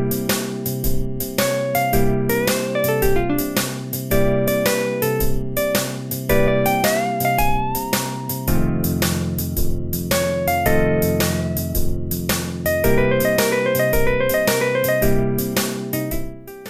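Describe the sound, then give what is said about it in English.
A machine-generated twelve-bar blues solo, stitched together from randomly chosen one-bar licks, plays loud and continuous: a busy melodic line of quick, jumping notes over a steady backing accompaniment. “If you just tell the machine to do it at random, you end up with solos that sound like this.”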